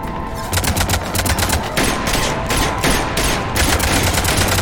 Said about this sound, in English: She's shooting her pistol.